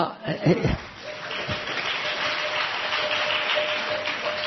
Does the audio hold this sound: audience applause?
yes